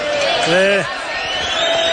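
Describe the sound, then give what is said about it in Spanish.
A bullfight crowd voices disapproval in the rain with loud, continuous jeering. One shouted voice rises above the mass of the crowd in the middle. “El público que lo reprocha y se da otra vueltecita.”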